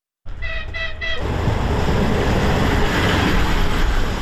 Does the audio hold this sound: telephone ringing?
no